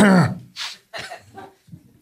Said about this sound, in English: What was that? What was what? The throat clear thing.